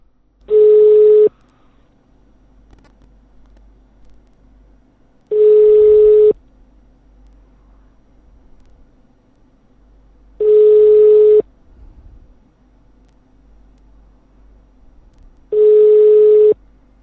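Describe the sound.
Telephone line tone: four steady, identical beeps, each about a second long, separated by even gaps of several seconds, over a faint hum of line noise, with no voices.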